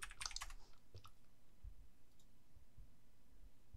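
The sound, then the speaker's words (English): Typing on a computer keyboard: a quick burst of light clicks at the start, then a few sparse, faint taps over soft background hiss. “Let's just type.”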